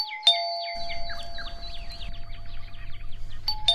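A doorbell chime rings indoors in the morning, opening with a sharp strike and then playing a bright run of many quick, descending bird-like notes over a low rumble, with a second chime strike near the end.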